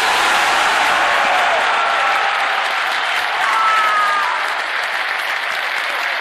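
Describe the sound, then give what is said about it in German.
Loud, roaring applause from a football club members' assembly of nearly 10,000 after a vote result: a thick, unbroken wall of clapping and crowd noise holding steady throughout. “Ich war einer von den knapp 10.000 Mitgliedern, die ihr da im Hintergrund gerade habt jubeln und klatschen gehört”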